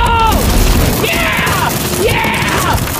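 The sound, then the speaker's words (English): A house pulled down with a rope crashes and rumbles in a dense, loud, continuous roar, with whooshing, swooping tones over the noise for about three seconds. “All right, the rope is all hooked up. Let's destroy this house once and for all.”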